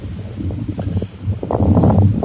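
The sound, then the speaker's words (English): Strong outdoor wind blows straight into the microphone, a low, rumbling buffeting roar that surges unevenly and grows louder in the second half. “The wind is really something today, so we'll work on that.”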